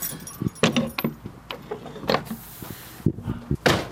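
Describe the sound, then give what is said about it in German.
Metal clicks and a key rattle as the lock of a lime kiln door opens in a 14th-century building, a series of sharp, irregular taps over a steady hiss. “Das Schloss des Kalkofens öffnet sich.”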